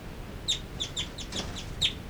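Two birds call inside a cell, one loud and one soft, in a series of short, high, sharp chirps spaced irregularly, some notes stronger than others, all fairly faint over a low background hiss, with no talking.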